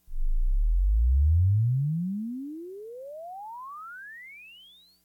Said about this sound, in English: This is a sweep from 20 hertz to 5,000 hertz.